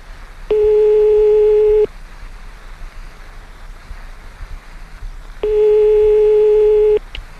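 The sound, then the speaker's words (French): Two long, steady telephone line tones sound while a call is placed, each about one and a half seconds, separated by a longer pause over a low background hiss. “C'est parti. On appelle quelqu'un.”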